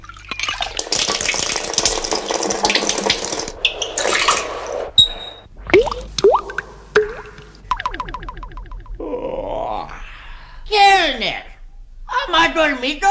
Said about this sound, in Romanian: Hai, spală, spală, că iar ne prinde ziua aici.